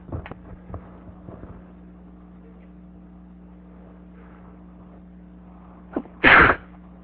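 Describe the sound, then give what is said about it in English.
A single loud, sharp sneeze bursts out near the end over a steady low hum, with only a few faint scattered noises in the quiet seconds before it. “Great to have your sneeze recorded for posterity.”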